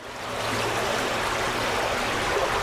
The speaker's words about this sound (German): Die Zorge fließt wieder in ihrem gewohnten Bett.